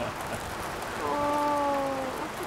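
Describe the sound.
Rain falls outdoors as a constant, even hiss that stays at a moderate level throughout, with no clear individual drops standing out.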